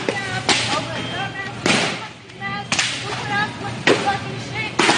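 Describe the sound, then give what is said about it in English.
Items thrown from a shopping cart hit a supermarket floor, giving several sharp, loud smacks at uneven intervals over steady background noise. “every time you hear a poom, poom, poom, that's her throwing an item and it's hitting the floor.”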